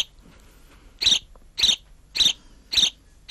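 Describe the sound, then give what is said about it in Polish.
A contented, well-fed sparrow chirps quietly in short, high, evenly spaced calls, about four clear chirps with another just starting at the end, over near silence. “To jest głos takiego zadowolonego, najedzonego wróbla, bo jeżeli wróbel jest zaniepokojony albo na przykład taki rozochocony, to odzywa się o wiele głośniej i o wiele częściej.”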